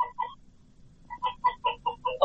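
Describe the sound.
Chickens kept at a home in a village in North Waziristan cluck: a couple of quick clucks, a short lull, then a busy run of many short clucks, fairly faint.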